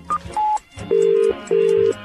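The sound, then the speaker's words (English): Telephone tones from a late-night call to a phone box: two short electronic beeps, then two longer steady tones separated by a brief pause. “it's tiring phoning phone boxes late into the night.”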